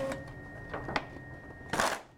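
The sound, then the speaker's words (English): A tactile dot printer advances its paper after printing, giving a few quiet, short mechanical rasps and clicks. The last is a longer rustling burst, with a faint steady whine underneath. “We skip forward to the end of the printing cycle. The area above the line is now filled with tactile dots. Okay. I'll go ahead and advance the paper.”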